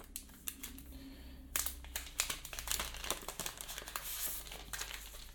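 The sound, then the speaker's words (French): Crinkling plastic as protective film is peeled off the front screen of a new smartphone: many faint, quick crackles and rustles, growing denser partway through. “Donc on va enlever le plastique qui le recouvre.”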